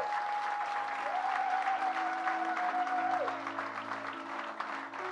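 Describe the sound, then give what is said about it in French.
An audience applauds during a church service to acclaim the Lord. The clapping is loud, dense and sustained, easing slightly toward the end, with steady held tones running underneath. “Est-ce que nous pouvons acclamer le Seigneur.”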